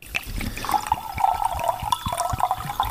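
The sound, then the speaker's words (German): Rosé wine is poured into a glass in a steady, gurgling stream, with continuous bubbling splashes and wet trickling, fairly loud and heard alone. “so, ich fülle mal ein.”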